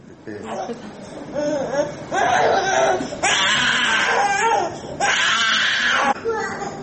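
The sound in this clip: A one-year-old boy cries during hemodialysis in a hospital's mother-and-child dialysis room: a few long, loud, strained wails in succession, breaking into gasping sobs between them.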